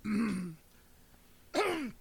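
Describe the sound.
Throat clearing to clear phlegm: two rough, voiced bursts, each about half a second long, separated by a quiet pause of about a second.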